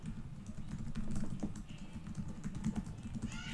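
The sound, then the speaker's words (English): Rapid typing on a computer keyboard, a dense, continuous run of quick key clicks at low volume over a steady low hum. “Damn, I type pretty fast.”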